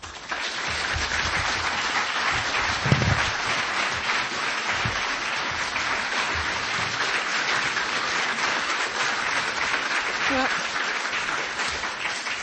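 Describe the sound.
Steady audience applause welcomes the author of The Dark Side to the stage, a dense, even wash of many hands clapping that holds at a constant loudness for about twelve seconds.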